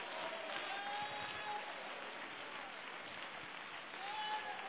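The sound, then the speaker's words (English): An audience claps hands during a church praise service, producing dense, steady applause that holds at an even loudness for the whole stretch. “Would you clap your hands unto Jesus, everybody? Come on, let's give God praise in this house.”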